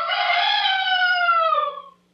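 A single rooster crow rings out as one sustained, strongly harmonic call lasting about two seconds. It tapers off and dips slightly in pitch at the end, with no voices alongside it.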